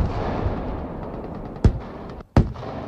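Artillery fire during a military exercise on a training range: two sudden, loud booms less than a second apart, each standing out sharply over a steady low rumble.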